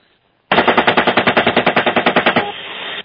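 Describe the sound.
A machine gun fires from a vehicle at a truck in one rapid burst of many evenly spaced, loud, sharp shots lasting about two seconds, then trails off into a fading rumble.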